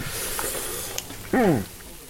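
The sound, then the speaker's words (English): Elk burger patties sizzle on a small Weber grill in a driveway, giving off a steady, fairly loud hiss that runs throughout, with a brief louder tonal sound near the middle. “The patties are sizzling on a little Weber grill in his driveway, and they smell delicious.”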